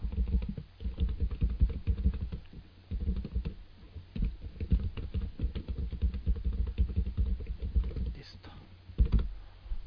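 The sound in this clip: Rapid typing on a computer keyboard while a pen name and public profile are filled in, with dense irregular clicks running almost continuously under low talk.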